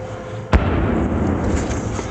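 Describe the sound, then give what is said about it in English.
A single sharp blast of RPG fire from militiamen shooting at U.S. positions near Najaf cracks out early, followed by a low, steady background rumble. “That was RPGs. Militiamen firing on U.S. positions here on the outskirts of Najaf.”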